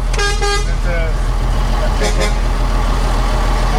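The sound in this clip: Vehicle engines rumble steadily from a slow convoy driving behind an old vehicle leaving a town, with a few short horn toots early on over the constant low drone.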